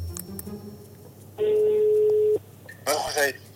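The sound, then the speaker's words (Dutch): A telephone call being dialed gives a single steady ringing tone that lasts about a second, followed by a short, brighter burst of sound. A faint low background is present throughout. “Maar eerst even bellen met José”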